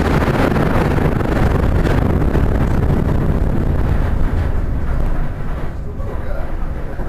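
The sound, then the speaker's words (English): A loud explosives test blast by a university explosives research team at their lab in Georgetown, Kentucky, tied to a limestone quarry mine: a broad, heavy roaring rumble that fills the whole clip and eases slightly near the end. “what you actually heard were members of the University of Kentucky Explosives Research Team conducting tests at their lab in Georgetown”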